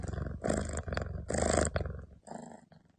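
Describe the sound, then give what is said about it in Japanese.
A cat purrs in a loud, rumbling purr that runs in several long pulsing stretches with short breaks between them. “ゴロゴロ以外言わないね。すごい言ってるね。”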